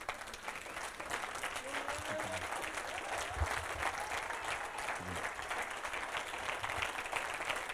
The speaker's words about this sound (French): Est-ce qu'on peut les acclamer, s'il vous plaît?